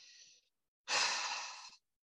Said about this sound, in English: if I just take one deep breath like that